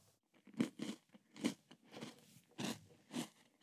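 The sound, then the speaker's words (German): Someone bites into and chews a vegan biscuit, producing quiet crisp crunches and crackles spaced out over a few seconds, with no talk. “Hast du die, äh, diese Kekse hier schon mal gegessen eigentlich? Nein. Probier ihn und sag mir, was du denkst.”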